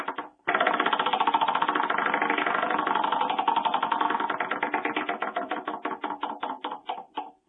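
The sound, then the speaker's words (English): Ratcheting clicks of a prize wheel being spun for a giveaway: a dense, rapid rattle that gradually slows into distinct, evenly spaced ticks before stopping. “now let's spin the wheel, see who gets the swag.”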